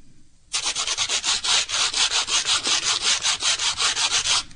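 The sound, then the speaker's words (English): Sandpaper rubbed back and forth over wood, many quick, evenly spaced strokes in a steady scratchy rhythm, loud and alone after a brief quiet start. “Sanding with sandpaper and blowing off the sawdust.”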